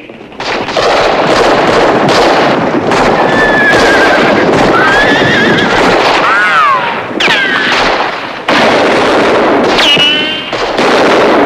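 Horses neigh and whinny in a frenzied bandit raid on a cantina, where outlaws shoot at marauding Mexican bandits. Several shrill, wavering whinnies rise above constant loud gunfire and commotion.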